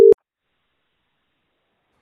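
A single short telephone busy-tone beep, loud and steady in pitch, from a failed attempt to reach someone by phone, followed by silence.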